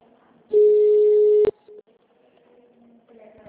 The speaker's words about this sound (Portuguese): Aguarde, estamos transferindo a ligação.